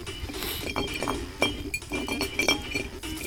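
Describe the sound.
Clinks of an empty glass bottle set down on stone at the start of a game of truth or dare, a few sharp taps over a busy, noisy background.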